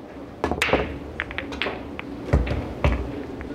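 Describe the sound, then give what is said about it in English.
Pool break shot on a felt billiard table, balls scattering with several sharp, fairly faint clacks and knocks spread irregularly over a few seconds. “Off the break, I got a stripe and a solid, so from there I get to choose whether I want to be stripes or solids.”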